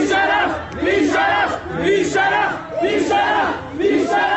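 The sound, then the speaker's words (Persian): Crowd of mourners chanting in protest at a mosque closed by security forces to stop a memorial service. Loud massed voices repeat short shouted phrases in a steady, rhythmic cadence, each burst separated by a brief dip. “مردمی که میخواستند در این مراسم شرکت کنند دست به اعتراض زدند.”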